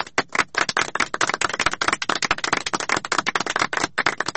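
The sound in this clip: Rapid, crisp clapping for a quiz contestant who guessed a hidden object correctly, many sharp claps in quick succession with no voices.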